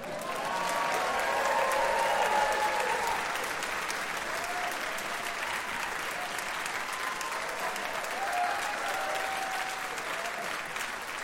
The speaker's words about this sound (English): please put your hands together for King Penegor and Amanda